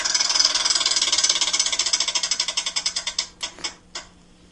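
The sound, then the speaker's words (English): Ratcheting clicks of a prize wheel spun to pick a football quarterback. Rapid, dense ticking gradually slows and spreads out into a few final, widely spaced clicks before the wheel stops. “Should we spin that wheel? Spin the wheel for a quarterback?”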